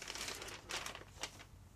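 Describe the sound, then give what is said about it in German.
Paper envelope being handled and opened to reveal a prediction board inside, giving faint, continuous crinkly rustling with a few slightly louder crackles. “Und ich möchte jetzt zum allerersten Mal den Umschlag zurücknehmen.”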